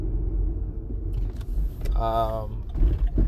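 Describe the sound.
Steady low rumble of a car driving on the road, continuous throughout, with a short tonal burst partway through.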